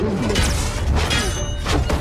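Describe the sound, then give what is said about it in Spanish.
Fists pounding on translucent spaceship doors: a few heavy, dull thuds land within a dense, noisy sci-fi soundscape that stays loud throughout. “Mientras su padre y su hermano se baten en duelo con sus espadas de plasma, Deck golpea las puertas.”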